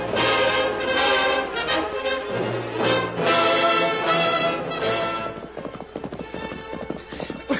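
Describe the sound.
Horses galloping hard in a chase, a loud, rapid, steady clip-clop of hooves that runs throughout, with the individual hoofbeats becoming sharper and more distinct toward the end.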